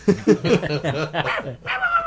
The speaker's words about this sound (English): They used the canine unit to track her down. You can hear it right now.